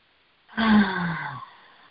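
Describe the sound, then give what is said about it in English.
A single breath is drawn and released together in a guided breathing session, heard as one soft, slightly voiced sigh-like exhale lasting about a second, alone against silence. “And let's just breathe together for a few moments.”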